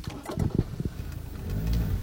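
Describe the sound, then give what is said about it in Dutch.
A car drives along an unpaved sandy road through a forest, its engine a low rumble with uneven bumps and knocks that swell into a heavier drone toward the end. “De verharde weg is al opgehouden. We rijden nu over een zandweg dwars door het bos.”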